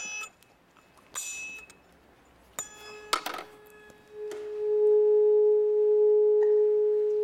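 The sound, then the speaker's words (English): A tuning fork held to an empty tube whose resonance matches its pitch: a few metallic strikes and clinks, then a pure, steady ringing tone that swells louder and holds to the end. “This empty tube has a resonant frequency that matches the frequency of this tuning fork. And so when I put them together,”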